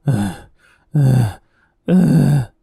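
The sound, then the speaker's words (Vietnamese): A man moaning in pain, three strained, low-pitched groans of roughly half a second each, evenly spaced with short silent pauses between them. “Tiếng rên rỉ vẫn phát ra.”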